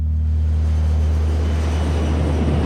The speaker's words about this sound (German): Kurz danach startet dann der erste Abschiebeflieger aus Frankfurt Richtung Kabul.